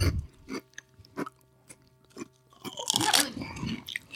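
Crunchy, puffy chips made mostly of mushroom and tapioca starch are chewed in a series of crisp crunches and bites, fairly faint at first and then a louder burst of crunching near the end.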